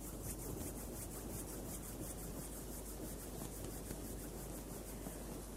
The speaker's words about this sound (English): Gently bring the palms together at chest level and rub them against each other.